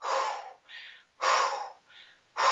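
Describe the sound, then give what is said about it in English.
Forceful exhalations through the mouth, made by a person demonstrating breath control: three loud, breathy rushes of air, the last cut short, each of the first two followed by a quieter, shorter intake of breath. “This is exhalation. Yes, I'm getting rid of my CO2.”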